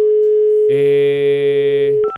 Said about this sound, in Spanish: Ok, ya tenemos el nuevo número. Vamos a marcar, vamos a marcar, vamos a marcar.